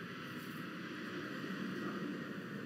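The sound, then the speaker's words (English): An airplane flies overhead, heard as a steady, broad rumble that holds at an even loudness for the whole stretch, with no voices over it. “That's a plane going overhead, all right?”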